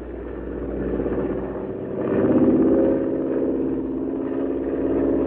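Airplane engine in flight, a steady low drone that swells louder for about a second midway and then eases back to a slightly lower, even level as it throttles down.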